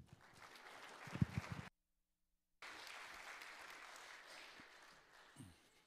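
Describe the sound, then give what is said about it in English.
Faint applause from a church audience greeting a guest speaker at a main service, a soft spread of clapping interrupted by a brief silent gap before it resumes. “So welcome, my friend. Let's give him a hand.”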